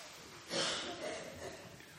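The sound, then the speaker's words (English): A soft, audible intake of breath during a religious service before a candle lighting, one brief rushing inhale that rises out of near silence and then fades into quieter breathing. “will you take a breath with me?”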